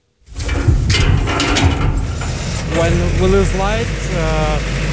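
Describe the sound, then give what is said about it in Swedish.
A large backup generator in the courtyard of a Kyiv high-rise starts automatically during a power cut, its loud engine rumble kicking in abruptly and holding steady, with a voice speaking over the later part. “När eltillförseln till höghuset i Kiev bryts startar den stora generatorn på gården automatiskt.”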